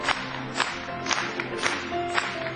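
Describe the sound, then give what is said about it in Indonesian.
An audience applauds a speaker, the clapping steady and moderately quiet, with a few brief louder swells. “Mari kita bertepuk tangan kepadanya sekali lagi.”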